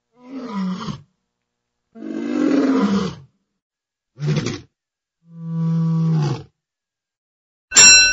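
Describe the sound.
A tiger roars in several deep, rasping bursts, each followed by silence, the last one cut short.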